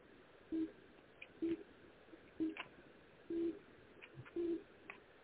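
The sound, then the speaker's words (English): Busy tone after a telephone call drops, five low, evenly spaced beeps over a faint steady hiss. “Oh, that call just fell off.”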